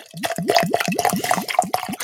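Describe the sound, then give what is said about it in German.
A drink glugs and bubbles as it pours from a nearly empty bottle. The gurgles come in a rapid, regular series, loud and clear with no talk. “Ach, was blubbert so schön, der alte Hochstädter hier.”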